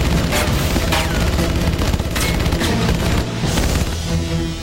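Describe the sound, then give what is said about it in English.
Dozens of bullets striking an old motorhome: loud, dense, continuous gunfire with rapid overlapping impacts and a few heavier bursts standing out. “Dozens of bullets puncture the old motorhome.”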